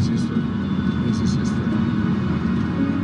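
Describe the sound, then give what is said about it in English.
An Airbus A340 airliner lands on an ice runway in Antarctica, producing a steady, loud, low rumble of engine and rolling noise that holds throughout. “it's a shiny layer of ice that forms on the landing strip, also made of ice. But they pulled it off. This is the first time a 340 lands in Antarctica. This is history.”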